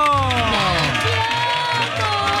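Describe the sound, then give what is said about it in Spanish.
Audience applause mixed with cheering and whooping voices, a dense, steady wash of clapping and crowd noise that holds at a fairly loud, even level throughout, with some tonal vocal calls rising above the noise. “¡Aplaudan eso! ¡Bravo!”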